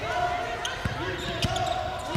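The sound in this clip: A basketball thumps on the court as a player dribbles during a women's game, a few dull low bounces spaced out under steady crowd noise and talk.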